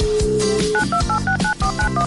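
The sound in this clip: Touch-tone telephone dialing: a quick run of short, evenly spaced dual-pitched beeps follows a steadier tone, all sounding over continuous background music as a call is placed to a listener.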